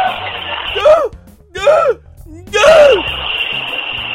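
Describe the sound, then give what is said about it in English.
A deaf man gasping and groaning while being choked, making three strained voiced cries that arch up and fall back, separated by short breathy pauses. “to hear what a deaf guy sounds like when he's being choked and can't breathe, well, then that's interesting to me.”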